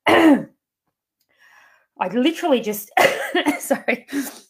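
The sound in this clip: Throat clearing from someone with dinner stuck in their throat after eating too fast: one short, harsh rasp, then a pause, a faint murmur, and a person talking.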